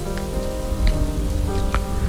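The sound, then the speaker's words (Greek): Heavy rain pours onto a city avenue that has turned into a river, a loud, steady, dense patter with no break. “Και έπειτα η βροχή, μια λεωφόρος που μετατράπηκε σε ποτάμι”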